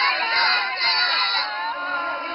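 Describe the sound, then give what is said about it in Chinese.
Supporters cheer and shout at a Chinese cuisine cooking competition in Taipei during the Huaiyang cuisine round, a loud continuous mass of high excited voices with a few shrill yells standing out. “观众们看的是如痴如醉，而加油团也展现了十足的热情。”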